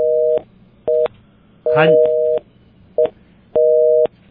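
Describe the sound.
Busy tone on a phone-in line after a caller's call dropped: five steady mid-pitched beeps of uneven length, with a brief voice heard over one of them.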